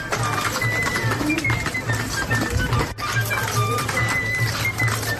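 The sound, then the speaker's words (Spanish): An ox-drawn cart travelling on a pilgrimage, guided by shepherds: a dense, continuous rattling clatter with creaks and faint clopping, steady and fairly loud throughout. “Un carro tirado por bueyes y guiado por pastores se encarga de transportarlas en un viaje que suena así.”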